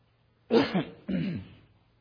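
Throat clearing in two rough, gravelly bursts close together, the second a little longer, with no speech around them.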